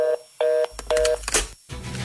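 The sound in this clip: Telephone keypad dialing tones: three steady, mid-pitched dual-tone beeps separated by short gaps, with bursts of broader noisy sound in between and after, fairly loud and without talk.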